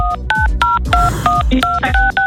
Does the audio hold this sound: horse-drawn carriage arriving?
no